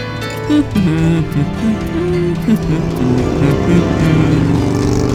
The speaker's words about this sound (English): Say, who's that heading this way? Oh, looks like a biker, dude. Hey, look out! Ugh, what a roadhog.